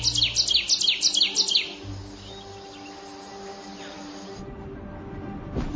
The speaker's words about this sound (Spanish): Pájaros, a menudo nos despiertan con su melodioso canto.